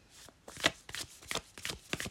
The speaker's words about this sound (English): Next card out, we have the Six of Wands.